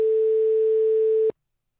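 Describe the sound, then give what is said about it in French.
A telephone ringback tone sounds while someone is being called: one steady, mid-pitched beep lasting a little over a second, then an abrupt cutoff into silence. “on l'appelle, tu vas lui faire la surprise ? Oh là. Ça nous change un peu le son. Peut-être qu'il ne répondra pas.”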